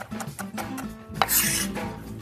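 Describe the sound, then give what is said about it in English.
A knife minces garlic in quick, uneven strikes with some scraping between them, a busy run of many choppy hits at moderate loudness with no voices. “Smash up some garlic, mince it up.”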